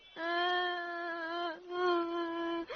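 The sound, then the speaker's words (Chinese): A young child cries in two drawn-out, high, wavering wails, the second following a brief catch of breath, fairly quiet and with no other sound. “你别哭啊。”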